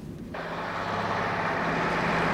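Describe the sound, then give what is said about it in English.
A large truck drives along the front of a disused warehouse. Its deep engine roar starts abruptly after a short quiet moment, then holds loud and steady to the end. “Outside, a large truck drives along the front of the disused warehouse and comes to a stop.”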